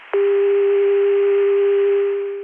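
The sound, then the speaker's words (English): CCSA dial tone from a small 288 crossbar PBX, a steady, loud, single-pitched tone that starts abruptly after a brief pause and holds unchanged before tapering slightly at the very end. “This is 288. This is the CCSA dial tone. 288 CCSA.”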